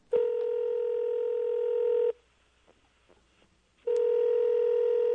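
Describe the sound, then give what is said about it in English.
Telephone tones while a call is placed: a loud, steady electronic tone holds for about two seconds, stops for a quiet gap, then sounds again at the same pitch. “Might be time for a greeting-type phone call.”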